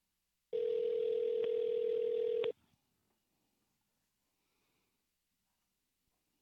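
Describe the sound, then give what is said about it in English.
Ringback tone on a phone line after dialling a baseball team's office: one steady, buzzing tone lasting about two seconds, then near silence. “There we go. It's ringing now.”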